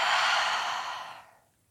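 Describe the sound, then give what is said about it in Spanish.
A deep breath during a guided breathing exercise: a long, airy whoosh of air that starts loud and fades steadily away over about a second and a half, with no talking. “Y vamos a inhalar profundo por la nariz. Y por la boca sueltas.”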